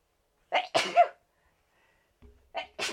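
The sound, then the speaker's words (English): Sneezing by a person: two bouts of sharp, explosive bursts with breathy onsets, separated by a pause of about a second, with no talk around them. “I have been sneezing like crazy.”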